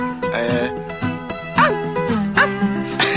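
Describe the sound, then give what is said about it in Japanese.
A person imitates a dog barking with a few short, harmonic yapping bursts of varied pitch, some sliding up and down, between brief pauses. “あの犬の鳴き声お願いいたします。”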